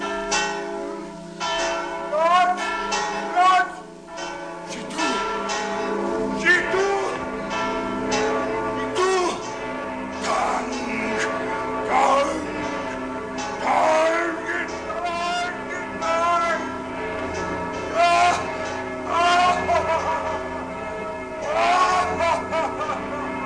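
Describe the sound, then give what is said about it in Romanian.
Church bells of Notre-Dame cathedral ringing in a continuous, loud peal of overlapping metallic strikes with long ringing tones. “Dar când clopotele sunau, pe chipul lui Quasimodo strălucea bucuria.”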